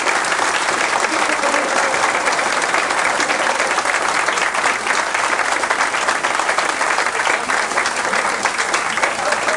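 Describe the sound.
Audience applause breaking out mid-performance: a long, steady burst of many hands clapping, dense and even in loudness, sustained for nearly ten seconds.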